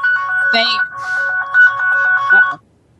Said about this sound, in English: that's a persistent phone call that just won't stop.